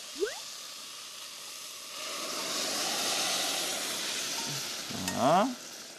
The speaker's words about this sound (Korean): 육수를 넣어보겠습니다. 아, 육수를 네. 자, 멸치를 걸러줘야 되니까 제가 받쳐볼게요.